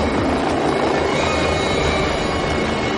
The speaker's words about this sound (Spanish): Al día siguiente, un helicóptero sobrevuela un árido paisaje que discurre entre desfiladeros.